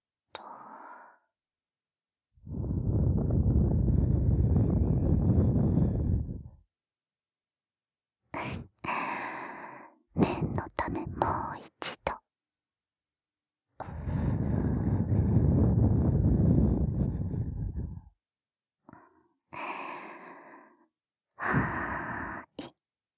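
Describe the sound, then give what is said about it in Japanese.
Breath blown into the ear after ASMR ear cleaning: two long, steady breathy blows, each lasting several seconds, with shorter bursts of breathy noise between and after them. “取りきれなかった耳かすも吐息で吹き飛ばして”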